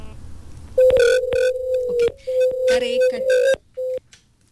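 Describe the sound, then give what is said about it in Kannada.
A telephone line tone sounds after a phone-in call drops: a steady mid-pitched tone cut into a few stretches, marked by sharp clicks and crackling bursts, then a brief final beep before it goes quiet. “ಕರೆ cut ಆಗಿದೆ, ಯಾಕೆ ಅಂತ ಗೊತ್ತಾಗ್ಲಿಲ್ಲ.”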